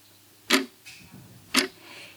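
A clock ticks: two crisp, sharp ticks about a second apart, with fainter softer clicks between them against a quiet background.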